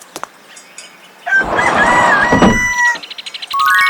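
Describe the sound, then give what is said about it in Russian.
A rooster crows in one loud, drawn-out call after a few faint clicks, followed by a rapid run of short clucking pulses. “Петух.”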